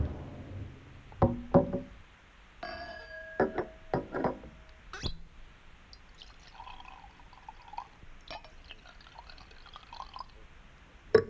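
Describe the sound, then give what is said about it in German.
Cognac poured into a glass, with a few knocks and ringing glassy clinks alongside a soft liquid trickle and drips, no voices. “Hier kommt der Kaffee. Darf ich Ihnen einen Cognac anbieten? Nur zu.”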